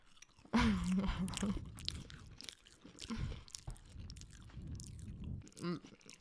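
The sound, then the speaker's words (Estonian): A soft cookie is chewed close up, with squishy, moist bites and mouth noises that come in uneven bursts, loudest near the start and then settling into quieter, irregular chewing. “Võtan su küpsis. On mingi pehme küpsis.”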